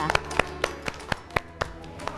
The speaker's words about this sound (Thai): เด็กๆปรบมือให้ตัวเองด้วยค่ะ